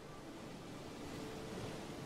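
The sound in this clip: Ocean waves washing ashore onto damp sand, heard as a soft, steady wash of surf with no distinct breakers, low in level and constant throughout.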